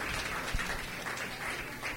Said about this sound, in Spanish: Un aplauso para Camila.